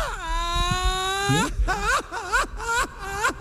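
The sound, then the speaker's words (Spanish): A child cries, starting with one long, high, steady wail and breaking into several shorter, wavering sobs with rising and falling pitch. “¡Ay, hombre! ¿Por qué llora?”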